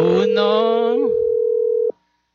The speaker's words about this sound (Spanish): Bueno, perdí esa llamada, vamos a ver si podemos establecer contacto.